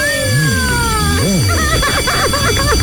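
A telephone rings with an electronic ringtone of repeated swooping tones that rise and fall, then turns into busier, chirping warbles, loud and continuous throughout.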